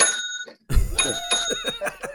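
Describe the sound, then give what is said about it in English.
A hand bell is rung again and again, with several bright metallic strikes whose clear tones ring on between hits, loud and distinct. “does she ever get tired of you ringing that bell?”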